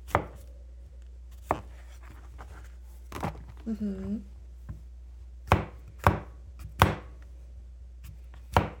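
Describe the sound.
A knife chopping turkey meat on a board for a sliced turkey dish, sharp knocking strikes at irregular intervals, quieter in the first half and more pronounced toward the end, with a brief voice in between.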